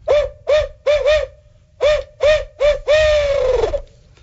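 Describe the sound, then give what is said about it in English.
Owl hooter call, a turkey-hunting call imitating an owl, sounding a rhythmic series of hollow hoots: eight notes, the last drawn out and falling in pitch, loud and alone. “So first call of the morning for me is going to be an owl hooter. And they're pretty simple. It sounds a little like this.”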